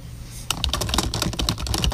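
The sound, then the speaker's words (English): Fast typing on a computer keyboard: after a brief quiet hum, a quick, dense run of sharp key clicks begins and continues without pause, with many keystrokes in under two seconds. “I'm trying to type fast”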